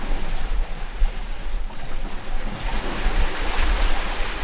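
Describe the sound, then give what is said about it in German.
Sea water sloshes in beneath an open structure, caught with the microphone held into a hole: a steady rushing wash over deep, low rumbling swells that surge a few times, with no voices. “da war unten drunter frei, das heißt, da ist so das Meer immer reingeschwappt. Und das war zum Beispiel so ein Moment, wo ich dachte, ah ja, okay, da gehe ich jetzt natürlich mit dem Mikrofon hin. Diesen Sound will ich einfangen.”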